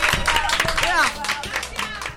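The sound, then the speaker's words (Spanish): Applause and clapping break out after a performance of singing, a crackle of many hand claps with voices calling out loudly over it. “¡Un aplauso! ¡Bravo! ¡Bravo!”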